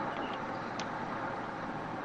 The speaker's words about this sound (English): So, I hear him driving or some shit.